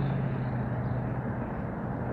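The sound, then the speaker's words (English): Traffic noise near a road overpass, a continuous low rumble with a steady hum underneath, even in level throughout and without voices. “You may hear some machinery in the background, in addition to the traffic noises.”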